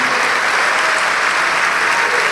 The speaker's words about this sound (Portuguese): Vamos aplaudir mais ao nome de Jesus. Vamos aplaudir mais.